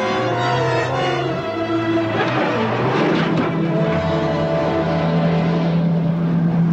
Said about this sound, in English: As Roberts gives orders to several armed guards, Webb takes off in a Land Rover.